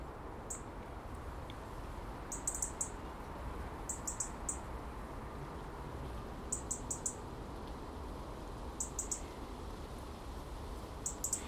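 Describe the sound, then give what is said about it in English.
A wren gives its alarm call, tiny and sharp like a blackbird's: several clusters of rapid, high, ticking chirps repeat throughout over a steady, faint rushing background. “Can't see it yet, but I recognise its call. It's just like the blackbird's alarm call, to be perfectly honest with you, but just tinier and sharper.”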